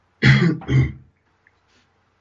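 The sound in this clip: Two rough, loud coughs in quick succession come from a man mid-conversation. Near-silence follows.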